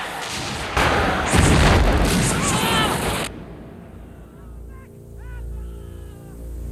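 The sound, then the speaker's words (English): Heavy guns firing on a besieged fort, with shells bursting in mid-air over the stockade and parade ground. A loud, roaring barrage of booms lasts a few seconds, then cuts off abruptly to a lower rumble. “from the muzzles of the heavy guns as they spew out death and destruction. Some of the shots burst in mid-air, raining fire down onto the stockade and parade ground.”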